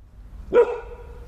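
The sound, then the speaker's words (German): A seven-month-old Golden Doodle dog gives one short, sharp bark that rings briefly before fading. “Bommel ist ein Golden Doodle, 7 Monate alt, hat weiches, weißes Fell”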